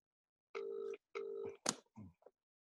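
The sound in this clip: A telephone call being dialed, with two short, steady beeps in quick succession followed by a few brief clicks and rustles. The whole sequence is faint.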